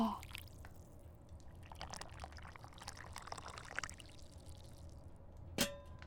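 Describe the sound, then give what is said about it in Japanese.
Hot water being poured into a cup, making a faint, continuous soft splashing trickle that runs throughout, with a single brief clink near the end. “じゃあ、お湯をカップに移し替えて。”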